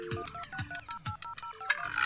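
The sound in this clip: A telephone rings for an incoming call with an electronic ringtone melody of short, stepped beeping tones, backed by a few low rhythmic thumps, playing alone and fairly loud.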